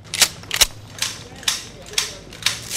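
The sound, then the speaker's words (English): Soldiers checking their weapons before an assault: six sharp metallic clicks and clacks spaced about half a second apart over a low background hum, with no talking. “key members of the team check their weapons.”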